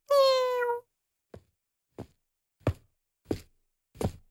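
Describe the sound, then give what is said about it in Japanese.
A cat gives one drawn-out, bright meow. Five soft knocks follow at a steady, even pace against silence. “猫の鳴き声？”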